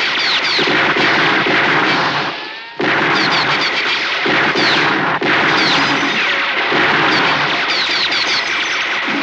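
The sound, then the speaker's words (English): Gunshots fired at a running man's feet in a western film, a loud, dense barrage of bursts that runs almost without a break and dips briefly once near the middle. “Prudy kills him, and he runs across while he's getting shot at by his feet.”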